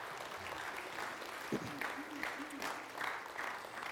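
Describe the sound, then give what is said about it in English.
A church audience gives a round of applause, soft and steady massed clapping with a few voices calling out over it midway. “Give that a round of applause.”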